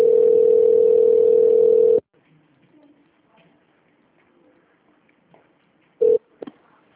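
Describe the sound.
A steady telephone line tone plays for about two seconds while a call connects, then cuts off abruptly. After a long near-silent stretch, a short burst of the same tone and a faint click follow.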